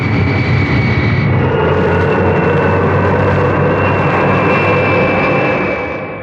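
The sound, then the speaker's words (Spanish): A jet airplane takes off from a runway, a loud, steady engine roar with a sustained high whine riding on top. The roar stays powerful throughout and eases slightly at the very end. “La nave se coloca en la cabecera de la pista. Y al recibir la señal desde la torre de mando en el aeropuerto, inicia el despegue.”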